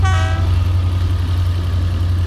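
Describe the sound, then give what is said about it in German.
A night sleeper train bound from Fort William toward London gives a short horn toot at the start, followed by a steady, loud, low rumble as it travels. “Weiter geht die Fahrt nach Fort William. Von hier aus setzen wir die Heimreise im Caledonian Sleeper fort, dem Nachtzug, der am nächsten Morgen am Bahnhof London Euston ankommen wird.”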